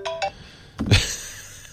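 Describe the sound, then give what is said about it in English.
A smartphone ringtone plays as two short, bright tonal beeps, followed by a dull thump and a softer lingering noise. “Oh, there's my phone ringing.”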